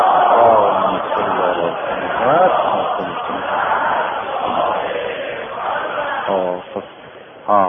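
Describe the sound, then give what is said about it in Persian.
A crowd recites salawat, the collective blessing on the Prophet, with many voices chanting together in unison, loud and steady for several seconds. “خیلی خوب، پس مبارک باشه، صلوات بگیرید.”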